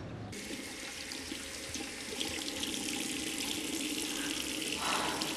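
Water runs steadily from a tap while someone washes their face, a constant broad rushing stream that stays at an even level throughout with no voices.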